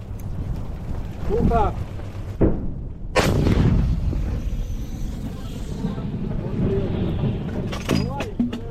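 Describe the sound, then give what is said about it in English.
A British light artillery gun fires a round, a sharp, heavy boom followed by a long rumbling decay, with voices heard before and after the shot. “Smell of cordite filling the air now. They're going to fire a second round. These British light artillery guns are trained on the city of Bakhmut,”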